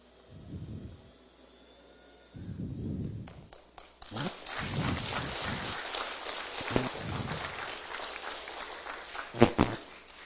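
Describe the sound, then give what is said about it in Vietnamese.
An audience applauds for God during a church service. Ragged clapping starts after a quieter opening, then continues unevenly to the end, with a few sharper, louder claps near the close. “That was a hand for God. Đó là chúng ta vỗ tay cho Chúa đó nghe.”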